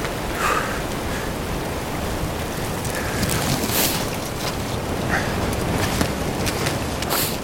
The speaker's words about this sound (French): Ça vente vachement.